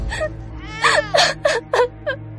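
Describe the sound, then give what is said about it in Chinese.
Crying from a young woman and an infant, heard through a phone: a series of short, high, strained whimpering sobs and catching gasps, rising and falling in pitch. “脚下的手机里，年轻女人和稚嫩的婴儿的哭声混杂在一起”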